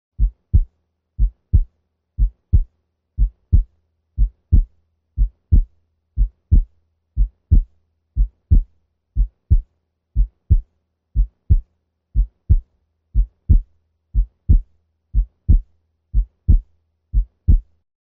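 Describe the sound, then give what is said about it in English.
Heart sounds at the base of the heart at 60 beats per minute, showing physiologic splitting of S2: soft, low thumps repeating in an even, unhurried rhythm with nothing else heard. “We will now listen to physiologic splitting of S2 at the base of the heart, as illustrated in Figure 1-12. We will listen first at 60 beats per minute.”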